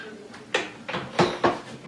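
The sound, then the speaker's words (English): A pressure cooker lid is rotated and locked with a knob on top, giving a few sharp clicks and short scrapes spread over two seconds at moderate loudness, with no talk. “and you rotate, there's a knob on the top that you rotate to lock it. You hear the noise? That's unlocked. That's locked.”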